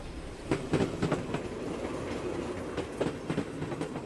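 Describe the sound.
A train rolling along railway tracks makes a steady rumble with a rhythmic clickety-clack of wheels over rail joints, clicking in small clusters at a moderate volume.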